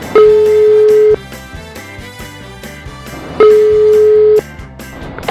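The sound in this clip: Ringback tone of a telephone call being placed during a radio prize draw: two long, steady electronic rings, each lasting about a second, sound clearly over continuous background music.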